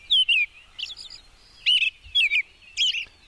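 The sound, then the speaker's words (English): An American robin sings in spring in short, clear whistled phrases with warbling, up-and-down notes. The phrases come in a few quick pairs with brief silences between them. “Such a nice typical song for springtime, isn't it? Yeah, the robin.”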